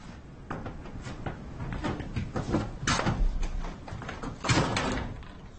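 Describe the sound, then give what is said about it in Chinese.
A door being shut indoors, heard as a few knocks and thuds with some shuffling in between, moderately loud and without talk. “把门关上。”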